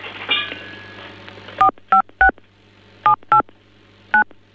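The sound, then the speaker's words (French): Telephone dialing tones on a phone line: a brief tone and low hum, then six sharp, loud touch-tone beeps in irregular succession, each a short two-pitch burst, with no one speaking. “le problème, c'est qu'il y a quelqu'un qui est en train de jouer avec la ligne.”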